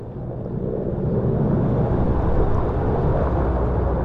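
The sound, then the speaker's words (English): A helicopter flies to and from a smoking mountainside during an uncontrolled wildfire, dousing the flames with water. Its engine makes a steady, fairly loud low rumble that runs unbroken through the whole clip, with no distinct blade chop standing out. “That's a helicopter flying to and from a smoking mountainside, which the copter is dousing with water.”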